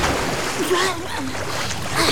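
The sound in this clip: A diving seabird bursts out of the water with its prey, a churning rush of splashing and bubbling water that stays fairly loud and continuous.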